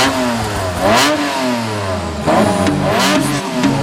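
A car engine revs hard in a few loud swells, its pitch climbing and dropping with each push of the throttle over a deep, low rumble.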